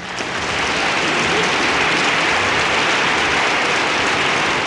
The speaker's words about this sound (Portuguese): palmas pra ele.